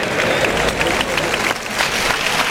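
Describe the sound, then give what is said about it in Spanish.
A bullring crowd cheering on bullfighter Roca Rey after two failed sword thrusts, a dense and steady wash of applause and crowd noise that holds throughout. “el público que sin embargo reacciona animando a Roca Rey tras esos dos pinchazos”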